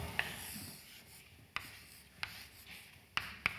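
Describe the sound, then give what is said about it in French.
Equations are written on a board with a quiet scratchy rubbing, broken by about five sharp little taps as the writing tool strikes the surface. “Alors je vous rappelle les équations d'Einstein. Alors je vais d'abord les écrire.”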